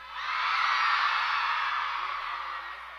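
An audience at a live concert screams in a sustained, high-pitched shrieking swell, loud throughout and easing slightly toward the end.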